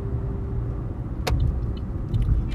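A car driving and slowing to park gives off a steady, low engine and road rumble that stays even throughout, with no voices.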